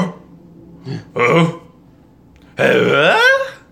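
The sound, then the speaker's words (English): A man imitates Tim Allen's trademark grunt with a few throaty, guttural sounds, the last one longest and loudest, wavering up and down in pitch. “just go on YouTube and look up Tim Allen Grunts on YouTube. And just watch. I swear to God, there's like a 45-minute video of him just going,”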